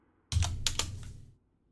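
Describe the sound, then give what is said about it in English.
Keys clack on a computer keyboard in a short burst of a few quick, crisp clicks, moderately loud and without any talk, ending after about a second. “That was the wrong thing to type.”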